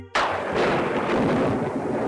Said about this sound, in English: Take this Castle Thunder.